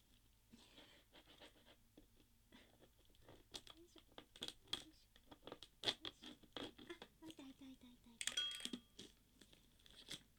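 A new toy's package is worked at with many faint scratching, crinkling and tearing sounds in irregular bursts, growing busier toward the end.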